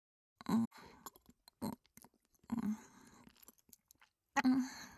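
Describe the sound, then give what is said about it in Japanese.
Chewing and biting into a home-made hamburger steak bento: a few wet, crunchy bursts and soft smacking clicks separated by quiet pauses, with brief low hummed sounds alongside. “我ながら上手にできたと思うんだ。うん、それではいただきます。”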